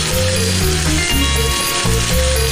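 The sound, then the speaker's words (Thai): Spiny lobster sizzles as it deep-fries in hot oil to cook the head, a loud, continuous crackling hiss with busy spitting texture that keeps up without pause. “กุ้งมังกรครับทอดชาน้ำมันให้ตัวหัวมันสุกครับ”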